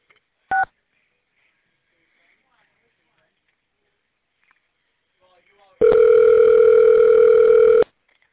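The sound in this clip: Touch-tone keypad dialing on a business phone menu: one brief two-note keypress tone, then silence, then a loud steady beep lasting about two seconds before cutting off. No voices.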